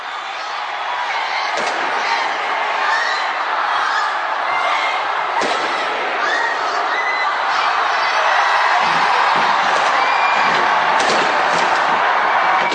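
Fireworks boom during the New Year 2025 display at the Sky Tower, a few sharp bangs punctuating a constant roar of crowd cheering and whooping that continues throughout.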